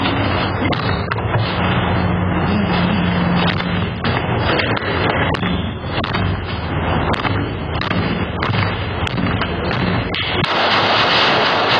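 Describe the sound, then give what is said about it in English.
Gunshots fired inside an apartment: many sharp, loud bangs spike through a dense, continuous wash of harsh noise for the whole stretch, with no clear gap between them. “those shots coming from inside that apartment, because that's like unbelievable.”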